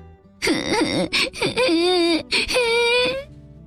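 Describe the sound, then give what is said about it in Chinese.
Little Gretel, lost in the forest with her brother, bursts into tears with a run of choppy sobs. These give way to longer, higher wailing cries, loud and uneven in rhythm. “小小的格雷特越想越难过，越想越伤心，哇的一声哭了起来。”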